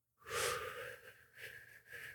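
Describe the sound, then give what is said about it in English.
A single long inhale during a box-breathing exercise: a soft, airy hiss that starts abruptly, holds steady for about two seconds, and swells slightly twice toward the end, with no talk over it. “We're going to breathe in.”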